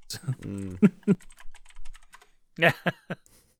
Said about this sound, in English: I had to type in trees that are sexy.